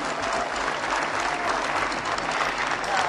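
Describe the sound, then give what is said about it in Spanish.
Audience applause at a rock festival: a dense, even roar of many hands clapping, steady in level throughout the short clip with no pauses. “el aplauso es para ustedes”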